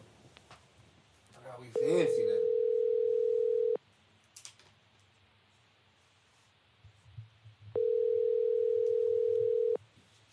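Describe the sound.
Telephone ringback tone of an unanswered call: two long, steady, even tones of about two seconds each, separated by roughly four seconds of near quiet with faint scattered noises.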